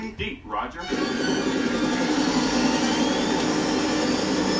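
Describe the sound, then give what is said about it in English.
A low-flying helicopter in a movie scene builds to a loud, steady, roaring whoosh that holds evenly after a short rough onset. “Fucking copter flying low.”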